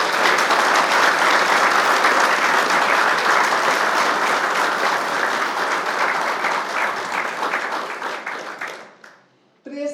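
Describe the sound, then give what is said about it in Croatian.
An audience at a promotion event gives sustained applause, a thick, loud roar of many clapping hands that holds for about nine seconds before tapering away near the end. “Molim vas da ga pozdravimo jednim velikim pljeskom.”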